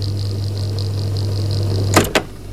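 A video recorder fast-forwards a football match recording with a steady mechanical whir and a thin high whine, ending in two sharp clunks.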